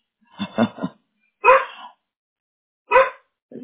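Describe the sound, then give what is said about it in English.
A dog barks: a few sharp, loud barks separated by short silent pauses, each a brief burst with an abrupt start, and a softer group of quick yips at the beginning. “Excuse my dog.”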